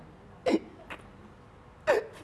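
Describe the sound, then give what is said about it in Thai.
A child hiccuping: two sharp, short hiccups spaced over a second apart, with a fainter catch between them, over a low steady background hum. “เริ่มสะอึกแล้ว”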